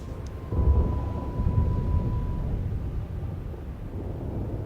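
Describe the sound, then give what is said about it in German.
Heavy pouring rain with thunder, a dense, steady low rumble that swells slightly after the first half-second and then holds at a fairly even level, with no voices. “Es regnet in Strömen.”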